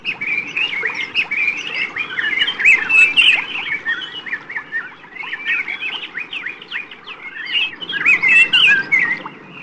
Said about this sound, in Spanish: Algunas aves llegaron más tarde y solo pudieron remojarse la garganta con agua barrosa del fondo.